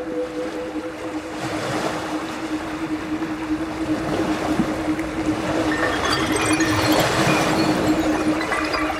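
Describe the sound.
Ocean waves make a loud, continuous roaring wash that swells slightly over time, with a faint steady low tone and wind noise underneath.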